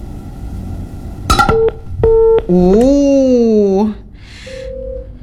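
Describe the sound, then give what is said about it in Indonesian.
Telephone tones as a call suddenly cuts off: a quick run of sharp dialing beeps, a longer harmonic tone, then a short flat beep, all electronic and fairly loud. “Tiba-tiba teleponnya putus.”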